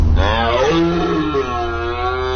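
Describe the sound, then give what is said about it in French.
A red deer stag bellows during the autumn rut in one long, loud, deep roar with a rough, throaty edge. It is heard alone, with no voices. “C'était le Brame du Cerf.”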